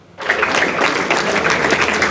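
Applause from students and teachers at a sports school ceremony honoring a European boxing champion begins abruptly after a brief hush, then holds as dense, steady clapping.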